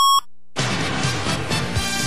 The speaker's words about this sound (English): 660 News time at the tone, 11 o'clock.